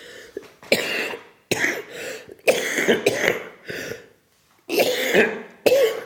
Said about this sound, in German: Geht die Husterei schon wieder los.